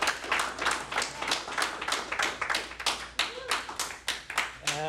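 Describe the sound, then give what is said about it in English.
Audience applause welcomes a speaker at a morning worship service: many hands clap in a moderately quiet, sustained patter with a loose, pulsing rhythm. “So just give a hand for Chris and welcome him.”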